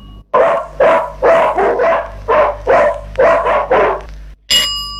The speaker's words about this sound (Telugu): ఇది కుక్క అరుపు.